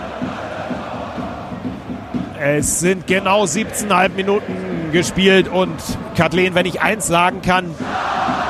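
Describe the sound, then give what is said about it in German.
Stadium crowd noise from Erzgebirge Aue fans at a third-division football match: a continuous roar of many voices that runs beneath steady, dominant commentary from a man. “und man hört es im Hintergrund, glaube ich, die Stimmung, die läuft, die kocht regelrecht über. Also für ein Drittligaspiel von Erzgebirge Aue, die Veilchen, die ja abgestiegen sind,”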